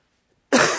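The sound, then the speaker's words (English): A single cough into a head-worn microphone worn on the side of the face: one abrupt, loud, harsh burst after half a second of silence. “when you got a mic on the side of your face and you cough, we all share that together”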